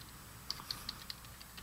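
Typing on a computer keyboard: a handful of sharp, evenly spaced key clicks, faint and crisp against a quiet hiss, with no talking.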